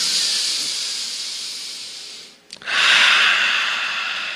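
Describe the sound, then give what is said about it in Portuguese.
Air is drawn in through the nose during a breathing exercise, as two long, loud, airy hissing inhalations separated by a brief pause. The second is slightly stronger, and no one speaks. “Faz assim, ó, puxa com o nariz, vai lá. Respira.”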